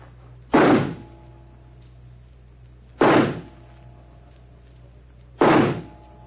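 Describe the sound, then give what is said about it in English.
Three sharp revolver shots fired at a target during a shooting wager, spaced a few seconds apart, each a loud abrupt bang with a brief decay against a quiet background. “I must just check that it's loaded. Yes, 6 bullets. All right, here I go.”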